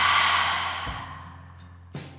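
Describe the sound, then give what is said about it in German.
A deep breath taken during a guided breathing exercise, in through the nose and out through the mouth: a long, soft, airy exhale that gradually fades, then a faint short intake. “Nimm einen tiefen Atemzug an der Stelle durch die Nase ein und durch den Mund aus.”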